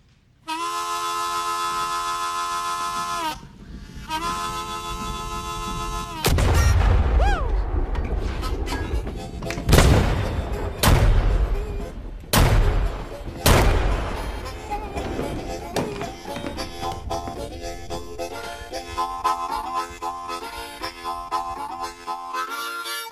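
Gunshots in a crime film: a few loud, sharp cracks separated by short gaps, heard over music after a sustained tonal passage.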